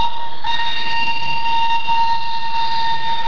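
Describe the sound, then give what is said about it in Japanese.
Railway train sounds: a sustained, steady, high whistle-like tone with bright harmonics holds throughout, strengthening shortly after the start, over a faint low rumble. “音旅は毎週こんな鉄道の音で盛り上がります。”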